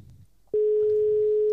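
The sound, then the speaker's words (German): A telephone ringing tone sounds while someone is being called: one steady, mid-pitched tone lasting about a second, rising abruptly out of a faint low murmur and cutting off cleanly. “seid ihr bereit, Alinho anzurufen?”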